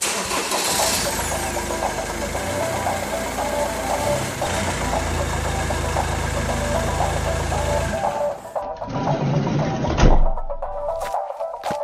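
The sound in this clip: A big red van's engine cranks and catches, then runs at a steady, rumbling idle. Its tone changes briefly near the end.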